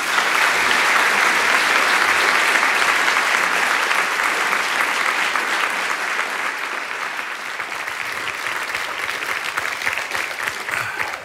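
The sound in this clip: Sustained audience applause welcomes a speaker to a talk on politics and public trust. Dense, even clapping holds steady for about eleven seconds, easing only slightly toward the end, with no voices over it.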